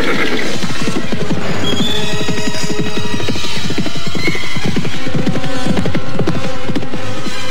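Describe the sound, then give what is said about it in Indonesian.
Galloping horses: riders spur their mounts hard across low brush and fallen tree trunks, making a dense, loud, continuous stream of rapid, overlapping hoofbeats that holds steady for the whole stretch. “Jantuk dan Jaga Paramudita memacu kuda mereka dengan cepat. Kuda mereka berlari meloncati semak rerumputan yang rendah”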